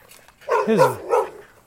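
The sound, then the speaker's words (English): A loud dog gives a drawn-out bark that bends down in pitch, followed at once by a shorter second bark, with little else around it. “the other dog. This is a pretty loud dog too”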